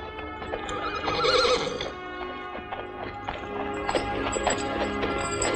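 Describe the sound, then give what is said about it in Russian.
Horses neigh loudly and hooves clop as riders dismount, with the whinnying and stamping forming a dense, continuous mix. “Они спешиваются с лошадей.”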